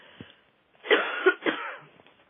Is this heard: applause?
no